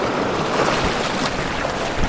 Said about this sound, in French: Nous arrivons sur la plage, à marée haute.